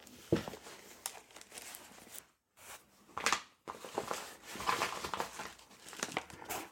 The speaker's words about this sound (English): I got a padded envelope here sitting with the box inside, and I will now open that and go ahead and unbox it.